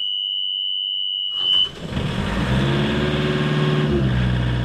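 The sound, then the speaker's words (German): A steady high-pitched alarm beep sounds as a rental boat is switched on, then the boat's engine starts and settles into a loud, continuous rumbling idle. “Wenn ich jetzt anmache, habt ihr einen Alarm.”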